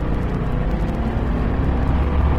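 Race car engine revving hard at about 7,000 RPM through gear changes, a dense, steady low roar that holds without pause.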